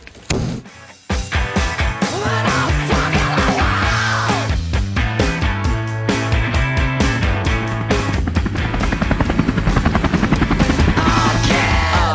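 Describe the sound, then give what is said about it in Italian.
Helicopter rotors chopping loudly, a fast, rhythmic thudding pulse that runs through the whole stretch and grows more pronounced toward the end, layered with sustained tonal sounds. “Vai, vai con gli elicotteri, le mitragliate, le mitragliate”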